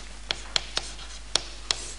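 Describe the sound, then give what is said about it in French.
Handwriting, as a lecturer writes out a Latin phrase: five quiet, scratchy pen or chalk strokes land at irregular intervals over a faint steady background hum. “Alors je vous l'écris, ça vaut la peine. N'est-ce pas ? Je vous l'écris en latin.”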